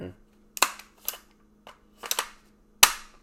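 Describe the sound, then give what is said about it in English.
Firearm racked right next to the microphone, about five sharp metallic clacks and clicks spaced unevenly, one a quick double snap, each loud and abrupt against near silence. “Go ahead and rack that thing right here for the mic. I was about to say, we don't want to kill the people listening. Yeah, we'll make some gun porn sounds for you guys real quick.”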